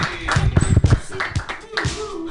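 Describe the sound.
At a stand-up comedy show, an audience claps as the next comic comes to the stage. Brief, uneven clapping mixes with voices and cheering over a short burst.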